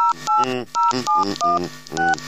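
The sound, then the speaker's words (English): Telephone keypad dialing tones: several short, bright dual-tone beeps in an uneven rhythm, each a steady electronic pitch, sounding clearly on their own without talk. “Dialing tone, thank you.”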